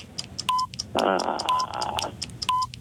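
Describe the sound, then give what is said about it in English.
A game timer runs as a clock ticks, with short, high electronic beeps roughly once a second amid faint repeating clicks. “Hold on. Let's start the clock and go.”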